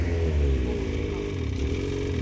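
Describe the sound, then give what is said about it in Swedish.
A snowmobile engine runs at light throttle, a steady, even mid-pitched drone with a faint rattle that holds a constant level throughout. “Precis, och ni ser att han behöver egentligen inte mycket gas. Ganska lätt på gasen. Och så sen hela tiden två fingrar på bromsen, så att ni alltid har kontroll på skoten.”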